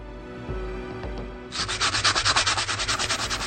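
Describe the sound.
Sandpaper rubs in a rapid run of regular back-and-forth strokes, a rough, hissing scrape that starts after a low rumble and keeps a steady, even rhythm to the end.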